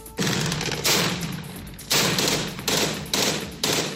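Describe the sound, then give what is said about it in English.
Gunfire as U.S.-backed Syrian Democratic Forces close in on the last territory held by Islamic State militants in Syria: several loud, rattling bursts of automatic fire follow one another at irregular intervals, with no voices. “That's the sound of U.S.-backed Syrian Democratic Forces closing in on the last small piece of territory held by Islamic State militants in Syria.”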